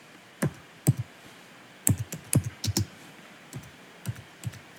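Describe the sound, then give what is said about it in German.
Computer keyboard typing in distinct, crisp clicks that come in scattered clusters of a few keystrokes, separated by irregular pauses, with no voices. “Lautes Tastaturgeräusch ist zu hören.”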